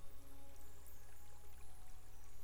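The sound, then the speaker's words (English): Water washing up onto a shore makes a faint, continuous soft rushing with slight swells and no distinct breaks, alone without talk. “As the water ebbs and flows up onto the shore”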